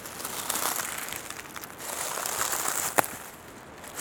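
Soft rustling and crinkling on a carpet of dead leaves, faint and crackly, with one sharper snap standing out near the end.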